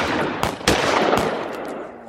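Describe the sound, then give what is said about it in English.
Guns fired into the air by onlookers as a white-sheeted wagon caravan rolls into town: a few sharp, loud cracks ring out over a continuous rumbling noise. “As the white-sheeted wagons pulled forward into town, guns from onlookers blazed into the air.”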